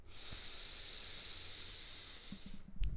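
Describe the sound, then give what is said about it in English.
One long, deep inhale through the nose makes a soft, steady, airy hiss lasting over two seconds. It ends with a few faint low rustles. “We're going to inhale through our nose.”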